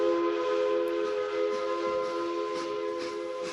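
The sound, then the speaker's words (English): A train whistle sounds as one sustained, steady chord of several tones, holding at an even loudness for the whole stretch with no break. “That's my train!”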